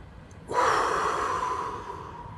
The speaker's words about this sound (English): Let's take one more and let's try to make this one the biggest breath you've taken all week.